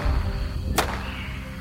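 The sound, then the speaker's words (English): A single sharp gunshot crack cuts through a jungle scene in an audio drama, standing out briefly above the steady, dense bed of jungle ambience. “After only a few minutes, shots ring out, and Ringer and Custer come running back out of the trees.”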